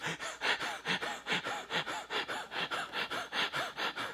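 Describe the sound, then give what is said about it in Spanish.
A voice imitates panting with quick, even, breathy puffs, roughly four per second. The steady rhythmic huffing continues throughout without words. “Panting es cuando uno está así.”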